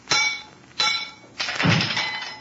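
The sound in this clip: Three loud, crunching breaking impacts as gas-corroded steel casing shatters under blows from a stick, the first two sharp and brief, the third longer and heavier with a scattering, clattering tail.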